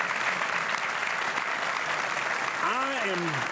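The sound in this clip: Studio audience applause welcoming two guests onto a talk show, a steady, dense wash of clapping that holds at even loudness throughout, with a voice speaking over it near the end.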